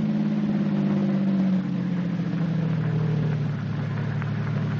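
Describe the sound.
Car engine driving along, a loud, steady droning hum whose pitch shifts partway through before holding even to the end, with no voices.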